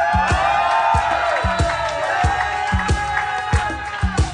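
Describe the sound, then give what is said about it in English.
A live audience claps and cheers, with loud whoops and shouting voices layered over a series of sharp claps throughout. “Wait, were you clapping for the visual aid or the fact that it's the last one?”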